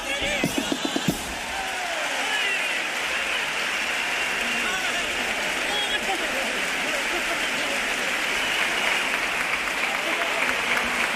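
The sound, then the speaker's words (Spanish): Thunderous audience applause for a comparsa at the Gran Teatro Falla during a carnival final, opening with a few sharp claps before settling into a dense, sustained roar of clapping that lasts over ten seconds. “Bueno, qué aplauso, le está brindando el Gran Teatro Falla a esta comparsa”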